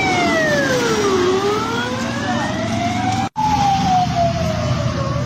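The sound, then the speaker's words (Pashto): Ambulance sirens speed past near a bus stop: loud wailing tones sweep steadily down and up over a low traffic rumble, broken by one brief cut partway through. “په هغه ویډیوي تصاویرو کې چې پر ټولنیزو شبکو خپره شوې دي، امبولانسونه د یو بس تمځای ته نږدې په چټکۍ سره د تیرېدو په حال کې لیدل کیږي.”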